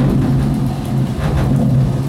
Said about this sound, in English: And then it gets quite dark, and then the real storm comes in.